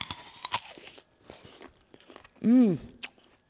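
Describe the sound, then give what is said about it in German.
Someone bites into a big, juicy apple: a few sharp, crisp crunches, then softer crackling chewing, followed by a loud, low, appreciative hummed 'mmm' from a voice. “Echt lecker, dieser Apfel. Groß und saftig.”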